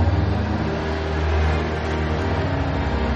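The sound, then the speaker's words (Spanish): A truck's engine rumbles as the vehicle rounds a bend on a road and approaches, a steady, loud, low drone that holds for the whole clip without a clear break. “Un camión dobla un recodo. Alex levanta un brazo. Lo baja cansada. El vehículo se acerca.”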